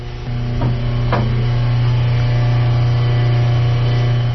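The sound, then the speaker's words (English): Steady electric hum of a propeller stirrer motor on top of a reaction barrel, mixing methoxide into oil in a vat; a constant low drone with even overtones that continues unbroken. “there is just a simple little propeller stirrer, and what you hear is that humming sound is the stirrer motor on top.”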